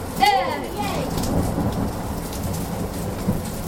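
Heavy rain and thunder of a British thunderstorm: a steady, dense hiss of downpour over a low rolling rumble that stays loud throughout.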